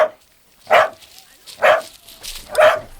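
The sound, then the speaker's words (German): A dog on a leash barks in short, sharp bursts, three full barks spaced about a second apart after a clipped one at the very start, with quiet gaps between them. “Ruhig, Oskar, ruhig. Was ist denn mit deiner Leine, hm?”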